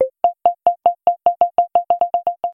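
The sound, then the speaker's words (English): Proximity beeps from a phone accessibility app signal nearby people as a long run of short, clean mid-pitched boops, their spacing tightening steadily so the series speeds up toward the end. “sounds, which play faster boops as someone gets closer to you, and then switches to a higher note when they're within 6 feet.”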